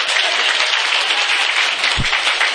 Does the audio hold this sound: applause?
yes